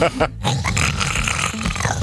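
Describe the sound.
A voice imitates very loud snoring, likened to a Bengal tiger: a rough, rasping, growling grunt, sustained and fairly loud for about two seconds.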